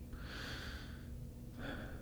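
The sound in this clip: A slow, deep breath taken at the start of a prayer: a long, soft, airy inhale, a pause, then the start of another breath, all faint over a low steady hum.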